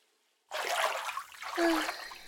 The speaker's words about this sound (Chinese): 我先去洗澡啊